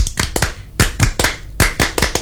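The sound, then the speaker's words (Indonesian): Rhythmic Scout clap (tepuk pramuka) by a small group, crisp hand claps in a patterned sequence of quick runs and accented single claps, loud and sharp. “Kayaknya kalau misalnya kita nggak tepuk pramuka kurang pas ya, kita ngobrol soal pramuka soalnya. Ya. Benar. Oh, yeah. Tepuk pramuka.”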